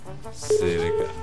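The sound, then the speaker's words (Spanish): A short, steady telephone line tone follows a dropped call, lasting about half a second, with people talking over it. “Se cayó la llamada. Se cayó la llamada”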